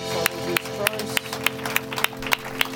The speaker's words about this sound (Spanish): Vamos darle un aplauso a nuestro Señor Jesucristo.